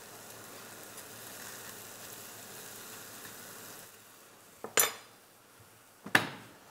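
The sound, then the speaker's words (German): Faint, steady sizzling of bread toasting in a frying pan, then a few sharp clacks of a utensil against the pan as the pieces are turned over. “Jetzt drehe ich das um. Und röste das so an.”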